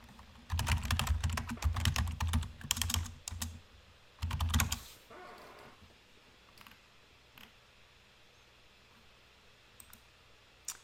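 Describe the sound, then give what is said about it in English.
Rapid clicking of keys as someone types a search entry on a computer keyboard. A dense, loud run of keystrokes lasts about three seconds, then a brief second flurry, then only a few faint clicks. “Let's type in AC.”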